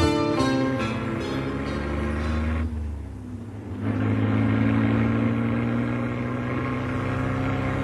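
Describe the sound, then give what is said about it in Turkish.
A small car engine runs along the road with a steady, humming drone that dips briefly midway, then comes back fuller and holds steady to the end. “Şu küçücük arabamın motor gücünü hiçbir araba yetişemez.”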